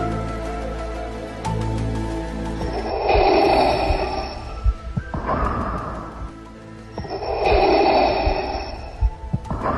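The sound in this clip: Heavy, rasping breathing of a villain, slow drawn breaths recurring in a steady mechanical cycle over a low, humming tonal background.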